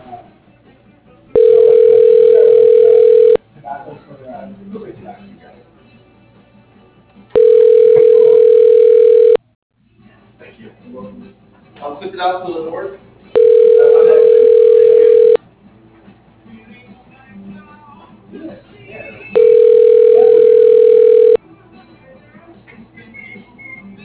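A phone call being transferred to voicemail rings through four loud, steady tones of about two seconds each, evenly spaced with roughly four-second gaps of quieter line noise between them.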